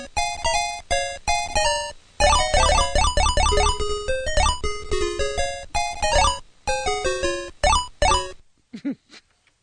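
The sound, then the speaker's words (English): Electronic sound effects from the arcade video game Frogger: bright, buzzy beeps in fast melodic runs and chirping rising figures, broken by brief gaps, ending with a few sparse blips. “No, that was Frogger. All right. That stupid little frog went across the road.”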